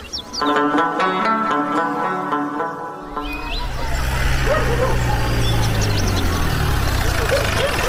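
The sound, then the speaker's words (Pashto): A car arrives after a short stretch of speech. Its low engine rumble sets in partway through and carries on steadily to the end. “د موټر غږ شو”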